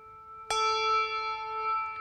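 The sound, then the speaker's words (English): A bell tolling in memory of the dead, struck once with a clear metallic attack, then a long, steady ringing decay of layered tones, fairly quiet and alone. “And as we remember others, one final bell tolling for those others who have passed.”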